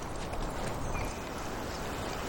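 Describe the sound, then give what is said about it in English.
Horse hooves clip-clop as a rider steers the horse through snow beside a grove of maple trees, a steady, muffled patter without distinct separate beats over constant background noise. “climbs up onto the horse and steers it toward the tracks.”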